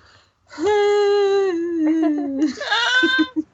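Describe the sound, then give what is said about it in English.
A person sobs grossly, giving one long sustained wailing cry held at a steady pitch. It breaks into shaky, choked sobs and catches toward the end, loud and alone. “Sobs. This episode title is just going to be like gross sobbing.”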